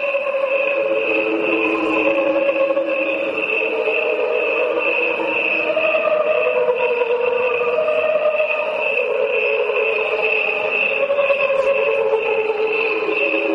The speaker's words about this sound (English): Their sounds are slowed down to the equivalent of a human lifespan. What you are hearing are the crickets only. No instruments or voices are added.